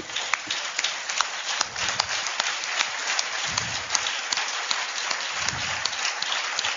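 A church audience applauds after a reading during a service, with dense, steady clapping that keeps a uniform intensity for about seven seconds.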